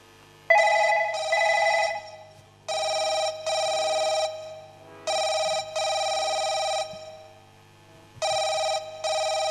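Ringback tone on an outgoing telephone call: four double-pulse rings in an even, repeating electronic pattern separated by short silences, with no talk.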